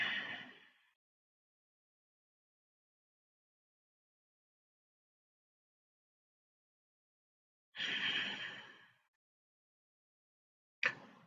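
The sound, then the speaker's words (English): Slow, deep inhaling and exhaling during a meditation: faint, airy breaths separated by a long silent pause, with one full breath in the middle and others cut off at the start and end. “Deep inhale and exhale.”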